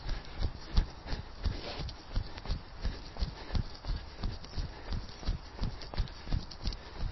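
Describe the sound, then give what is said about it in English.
Jogging footsteps on a forest path, many soft, even thuds in a steady, relaxed rhythm without a break. “And on we go, jogging nice and easy.”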